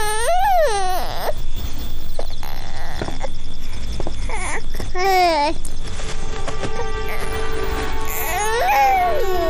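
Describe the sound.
A baby cries loudly in several wailing bursts, each cry bending up and down in pitch. Short gaps and whimpering sounds fall between the cries.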